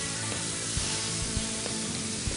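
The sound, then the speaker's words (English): Thick breasts frying in a very hot pan with a little too much oil: a loud, dense, continuous sizzle with a few sharp pops rising out of it. No voices. “I think I got a little bit too much oil in the pan. We'll see how it turns out. This is gonna take a good 4 minutes on each side.”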